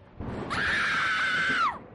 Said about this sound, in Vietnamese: Một tiếng thét thất thanh, tên cầm đầu bỏ chạy